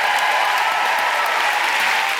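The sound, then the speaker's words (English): Steady audience applause at a live suffragette centenary panel event, thanking three guests. It holds at an even, dense level throughout, with no voices over it. “So please give a huge round of applause to Jess Foster-Kew, Anita Arnond, and Rachel Holmes.”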